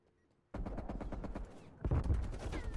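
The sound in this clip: Video game gunfire crackles in dense, rapid volleys of many sharp shots, with no talk. The fire is continuous and grows louder and heavier partway through.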